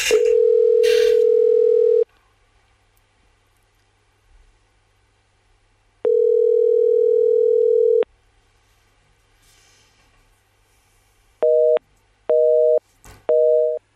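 Telephone ringing heard on the line during a call: two long, steady ring tones separated by silence, then three short busy-signal beeps once the other end hangs up.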